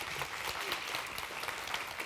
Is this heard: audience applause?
yes